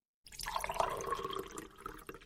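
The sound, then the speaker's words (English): Coffee being poured out in a steady, faint splashing stream of liquid that runs for about two seconds, alone with no talk. “We'll pour a little coffee out for Proxmox.”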